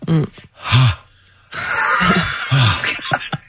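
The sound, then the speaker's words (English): Heavy panting and gasping of a person catching their breath after climbing four steps: a few loud, voiced huffs, a short quiet gap, then a longer rough breathy exhale with more gasps. “Sorry, just catching my breath after those four steps.”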